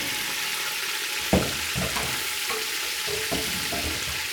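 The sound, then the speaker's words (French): Carrots and raisins frying in butter and oil in a pan give a steady, dense sizzle throughout, with a few soft knocks and scrapes from stirring. “Et là, les raisins ont absorbé le beurre. Donc, du coup, tu rajoutes un peu plus d'huile pour que les carottes cuisent correctement.”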